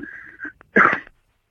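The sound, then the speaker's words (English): A single sneeze: a few short breathy catches lead into one loud, abrupt burst, then quick silence. “but that was a sneeze.”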